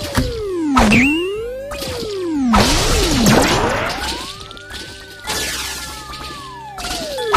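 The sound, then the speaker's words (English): Video game sound effects as a ball hits and grabs a power-up: loud sweeping electronic tones glide up and down again and again, broken by several sharp crashing hits and whooshes, with no talking. “And that's a power up. And the ball just hit it and grabbed it.”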